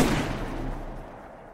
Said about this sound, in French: Elle contourne le lit, vise la nuque, tire à bout portant.